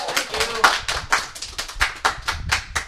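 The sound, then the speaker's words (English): An audience applauds at a live event, with many distinct hand claps landing in a quick, uneven stream, fairly loud and sharp. “So let's have a little hand appreciation for all.”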